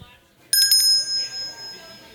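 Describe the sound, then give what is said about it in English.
A bell is rung as a demonstration at a Foley table: a few rapid, bright strikes form a quick burst, then a clear high ringing tone slowly fades away alone. “And, of course, we have the infamous Wits End bell. Can you give us a demonstration of that?”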